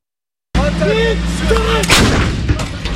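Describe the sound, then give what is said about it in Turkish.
Artillery and howitzer fire at a military exercise in Polatlı, Ankara: a heavy, sharp blast bursts out amid continuous outdoor rumble and noise, followed by rolling low reverberation. “Yerli ve milli silahlar, obüsler, insansız kara araçları. Türk Silahlı Kuvvetleri gücünü Ateş Serbest 2026 tatbikatında sergiledi.”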